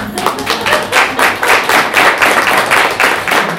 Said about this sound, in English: Come on up. We'll take a round of applause